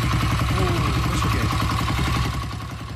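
A 125cc motorcycle with an open exhaust idles with a fast, steady, throaty putter that drops slightly in loudness toward the end.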